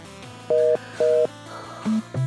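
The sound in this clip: Electronic dialing tones from a new phone: two matching dual-tone beeps at an even interval, followed by shorter, lower single beeps, crisp and steady over a faint background hum.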